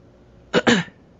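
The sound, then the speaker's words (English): A person coughs once during a conversation: a short, sharp cough in two quick bursts, fairly loud and alone with quiet before and after. “Sorry, I had to cough there.”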